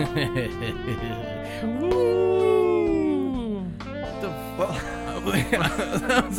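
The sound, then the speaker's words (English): A cat's drawn-out meow glides up and then slowly down in pitch, set against a steady tonal background with other brief sounds around it. “That was my cat.”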